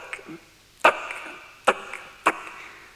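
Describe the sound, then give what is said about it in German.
Heavy chopping blows as a pig's head is cut off: three sharp, loud strikes, each with a short ringing tail, after a fainter knock at the start. “Ah, tack, ah, tack. Sie schlagen mir den Kopf ab.”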